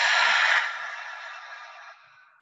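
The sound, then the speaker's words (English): A single deep, audible exhale during a guided breathing exercise, done in movement or stillness: a long breathy rush that is strongest at first, then thins and trails off, with no talking. “we'll take a deep inhale and an audible exhale. So deep inhale, expand, lift. How full can you get? Let it all go.”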